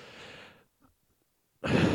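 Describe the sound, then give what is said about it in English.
A man imitates a deep breath: a soft, airy inhale, a short pause, then a loud, breathy exhale in one long sigh, alone with no talk. “I've been listening to Jocko Willink podcast, and whenever he says something deep, he always goes, takes a deep breath.”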